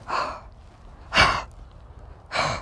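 An animal breathes heavily: three loud, breathy gasps spaced roughly a second apart, each short and harsh, with near silence between them.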